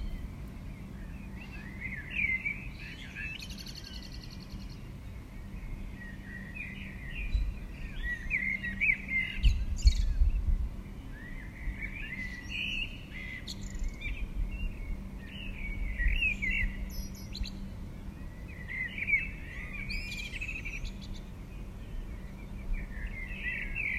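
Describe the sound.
Birdsong drifts in through an open window: many bright, high chirps and short trilled phrases repeat in loose bursts for the whole stretch, fairly soft and unhurried, over a faint steady low hum, with no voices.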